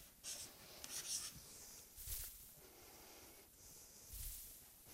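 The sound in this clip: Handwriting of a mathematical symbol with a small ring above it, heard as faint scratchy rubbing strokes of a writing tool on a surface, several short strokes with quiet pauses and no talk.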